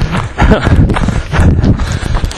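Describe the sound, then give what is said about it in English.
A person's running footsteps outdoors make loud, thumping strides in a quick, steady rhythm that continues throughout. “It's so fun to talk about yourself when you're out here running.”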